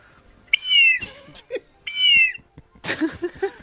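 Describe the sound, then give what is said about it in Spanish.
Two long, shrill blasts from a bird-call whistle sold for calling harriers and condors, each a steady high tone that bends downward as it ends, separated by a few short knocks and followed by scattered handling noises. “El pitocóndor es un silbato, perdonad que tire de aquí porque es que se ha enganchado.”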